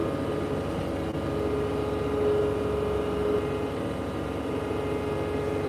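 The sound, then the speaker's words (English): Tractor engine drones steadily while powering a PTO-driven snow blower through deep snow, a dense, continuous low rumble with a faint steady hum on top and no breaks. “You can't beat a PTO. Yeah, PTO has mad power. The whole torque of the tractor and the engine.”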